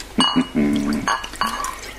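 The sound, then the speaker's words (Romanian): Champagne poured into a glass: a loud, gurgling liquid pour with bright, ringing glassy tones, coming in several short bursts with brief gaps between them. “E, și acum să ne mai turnăm un pahar de șampanie.”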